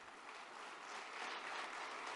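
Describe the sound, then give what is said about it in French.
Applause from a church audience during a sermon: steady, dense clapping that stays faint and even throughout, swelling slightly toward the end. “Juste pour ça, il mériterait une bonne main d'acclamation.”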